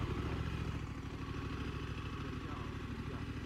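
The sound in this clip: A Honda NT1100 motorcycle engine runs at low revs with a faint, even low throb under people talking.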